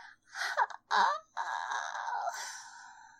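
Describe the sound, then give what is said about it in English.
A woman's voice imitating a moan of pleasure: breathy gasps, then a long, drawn-out moan, heard alone. “she cries out in pleasure. Sounds kind of like this.”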